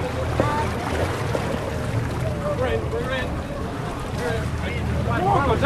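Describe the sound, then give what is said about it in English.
Ferry arriving and struggling to dock at a castle landing as the wind picks up, with a continuous low boat-engine rumble and gusting wind noise, while voices call out over it. “Finally, the ferry home to Ashford Castle has arrived. The wind is lifting and he's having trouble docking.”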